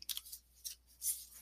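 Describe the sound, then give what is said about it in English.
Heart-shaped picture cards are shuffled, giving a few short, papery swishing riffles separated by brief pauses, faint and crisp. “go ahead and shuffle them. So while I'm shuffling that, I love these because they have pictures and they also have loving messages on them.”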